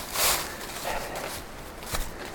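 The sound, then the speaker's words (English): Footsteps on a thick mat of dry leaves along a steep trail give a few crisp, rustling crunches at an uneven pace, with soft leaf shuffling in between and no talk. “That's why I slipped a little bit on these leaves, because there's a really thick mat of leaves on the trail, and they're all dry.”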